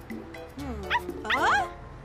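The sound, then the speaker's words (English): A puppy found alone yips and whimpers in a few short, high-pitched, wavering cries that rise in pitch, fairly quiet and brief. “It's a puppy. Why are you alone?”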